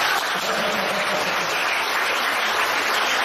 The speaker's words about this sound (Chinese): 你们虽然啊人这么少，但是鼓出来的掌声啊就像啊一千人一样，再鼓掌